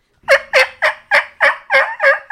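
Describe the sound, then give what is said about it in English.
A hunter imitates a turkey hen with a call, producing seven loud, flat yelps in a quick, even rhythm with no voices in between. “So it gives it that pop and makes it sound like a hen instead of just a flat yelp. Because you'll hear a lot of guys just go,”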